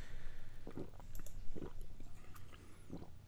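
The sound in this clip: Chewing on a snack during a live tasting: a few crunchy bites spaced about a second apart, each a short rough burst over a low, steady background hum, with no talk.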